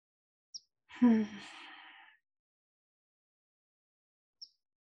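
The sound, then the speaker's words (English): A deep breath taken during a mindfulness breathing exercise, released as a single voiced sigh lasting about a second and fading out. Quiet silence surrounds it, with two tiny clicks before and after. “So just as a practice, let's inhale deeply and exhale. And we'll do this three times”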